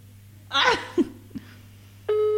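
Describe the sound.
A telephone ringback tone of an unanswered call sets in near the end as a steady, loud electronic beep, after a short voice-like burst and a couple of faint knocks over a low hum.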